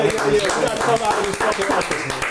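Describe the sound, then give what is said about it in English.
A small round of applause, with a few hands clapping in quick taps, sounds under ongoing talk from people in the room. “Let's give a round of applause.”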